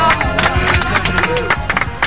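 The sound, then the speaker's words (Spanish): A small audience claps in brisk, uneven bursts, loud and dense across the whole moment. “un aplauso”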